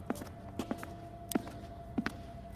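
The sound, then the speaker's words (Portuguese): Slow footsteps along a dark school corridor: a few soft, irregular taps with uneven gaps, faint over a low, steady hum. “caminha lentamente nos corredores escuros do colégio.”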